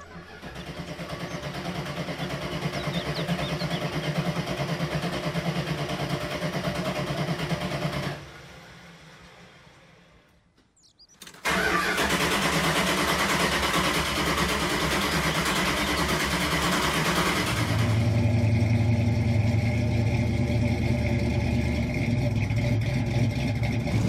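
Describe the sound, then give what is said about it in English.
A car engine roars steadily on a street, drops away for a few seconds, then surges back loud and holds, with a deeper drone joining toward the end. No one speaks. “I jumped in the car and drove off down the street.”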